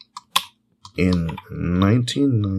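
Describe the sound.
A few sharp, light mouse clicks on a studio computer, spaced apart and alone, before a person starts talking.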